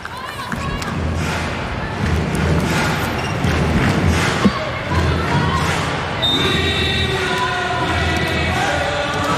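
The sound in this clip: A volleyball is served by a substitute player during a match, with one solid ball thump rising above a steady crowd murmur while a commentator talks throughout.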